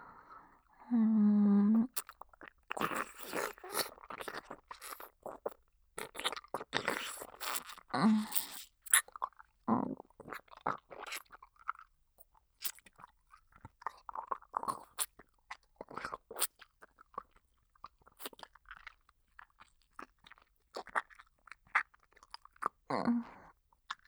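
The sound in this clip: Quiet, close chewing with many crunchy bites and wet mouth sounds in an irregular rhythm, pausing briefly between bursts.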